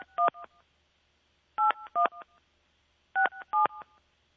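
A telephone keypad dials a number with six quiet beeping key tones, grouped as three evenly spaced pairs. Each pair is followed by a faint short blip, and there is silence between the groups.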